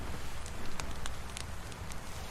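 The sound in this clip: Campfire in a survival video game: faint, sporadic crackles and pops over a soft, steady hiss.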